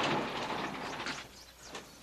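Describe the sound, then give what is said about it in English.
A garage door slides open with a faint, rolling, rumbling scrape that eases off about halfway through. “Now the door to Frank's garage slides open”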